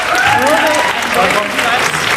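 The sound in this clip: Audience applause at a podium debate, continuous dense clapping that runs throughout while a voice speaks over it.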